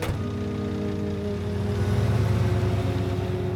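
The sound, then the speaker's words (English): A black van pulls away from a car park with a low, steady engine rumble that swells slightly in loudness toward the end. “turns to watch the black van pull away from the car park.”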